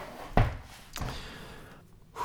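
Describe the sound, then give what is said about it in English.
A chair is moved beside an examination bed, giving two dull, heavy thuds a little over half a second apart, then a quieter stretch. “Now, I'll just put my chair over here beside you.”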